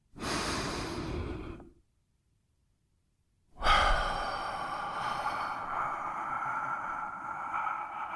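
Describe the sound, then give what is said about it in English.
A deep human breath taken alone: a long, noisy inhale, a pause of near silence, then a long, slow, breathy exhale. “let's take a deep breath.”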